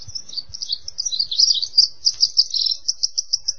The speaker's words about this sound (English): The western wren, you can hear it right now, is thought to have split from its cousin, the eastern wren, during the last ice age.